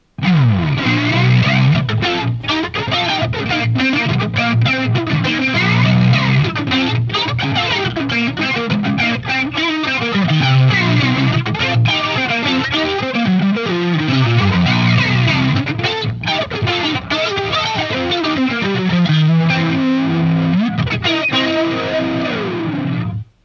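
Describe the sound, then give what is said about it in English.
Seven-string electric guitar through a phaser pedal and crunch distortion plays a continuous, dense riff. The tone is swirling and gritty, moving between chords and low notes, loud and unbroken, with no talk. “So I kind of like to dial in the phaser setting on this pedal and then run the Animal with it as well.”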